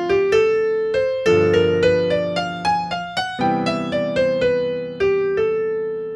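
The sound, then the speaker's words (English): Solo piano plays a bebop-style jazz line using chromatic approach notes: many distinct struck notes, each decaying, move at a moderate pace over sustained lower chords that shift a few times. “Okay, now you can hear when I'm using my approach notes, I am playing a bebop style of jazz,”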